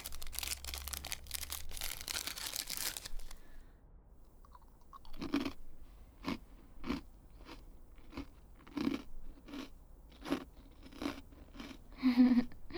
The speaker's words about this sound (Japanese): お姉ちゃんはこのせんべいいただくで、君も食べてな。